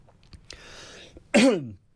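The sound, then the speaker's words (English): A radio presenter coughs on air to clear something caught in the throat: a soft, breathy rasp, then one short, harsh, loud cough burst that fades quickly. “Something's caught in my throat.”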